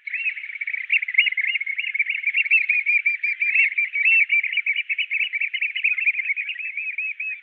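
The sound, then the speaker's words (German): Oystercatcher trilling calls: a continuous, high, piping trill of rapid repeated notes that stays loud and steady throughout, with no voices. “Und dort, wo Austernfischer sind, ist ihr Trillern zu hören.”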